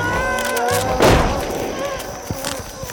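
One gunshot, a single bullet fired: a sudden booming blast that breaks through a continuous tonal background, then fades quickly.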